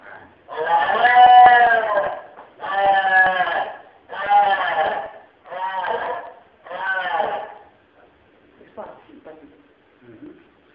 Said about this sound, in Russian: это обычный рёв овца городского рынка.